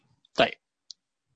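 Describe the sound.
A computer mouse click during a keyboard-shortcut demonstration: one short, sharp click against silence, followed by a much fainter second click.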